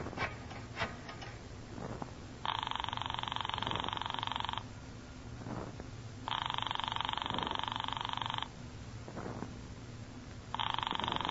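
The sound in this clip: A telephone rings upstairs in a house, three long, steady electronic ring bursts separated by pauses of about two seconds, the last one cut off. Faint clicks and a low hum sit beneath.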